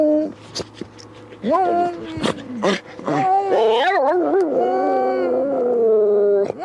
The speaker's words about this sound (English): Come on, sing song. Oh, you silly dog.